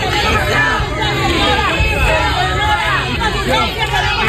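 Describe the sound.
Health workers in Ceuta boo and shout as the health minister arrives. The crowd noise is loud and dense, with voices jeering and calling out continuously throughout.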